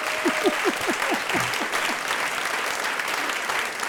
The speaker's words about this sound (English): Give it up, everybody.